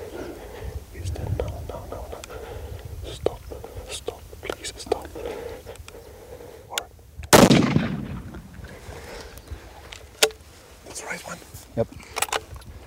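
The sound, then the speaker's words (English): A single loud rifle shot is fired at a buck during a hunt: a sharp crack with a brief ringing tail. People whisper before and after it, with faint rustling throughout. “The first shot didn't kill it.”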